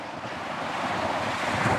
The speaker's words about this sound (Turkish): Bunu ayarlamak için rüzgarın ve dalgaların sakinleşmesini bir gün daha beklemeli miyim diye düşünüyorum doğrusu.